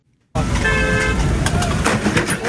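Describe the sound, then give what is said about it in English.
A car horn honks on a street, one steady mid-pitched tone lasting well under a second over loud, rushing traffic noise. “But the only thing the driver could worry about was honking his horn because the guy fell down.”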